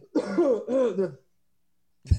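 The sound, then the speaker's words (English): Small throat clearings from a person with chest congestion: two hummed, voiced bursts close together, then a short sharp cough after a pause. “have that continuous like chest congestion where I give little coughs everyone.”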